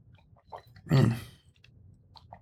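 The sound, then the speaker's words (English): Someone bites and chews a shortbread cookie while drinking wine. One loud, crisp crunch in the middle is surrounded by faint, soft chewing clicks before and after it. “Shortbread cookie goes great with this wine.”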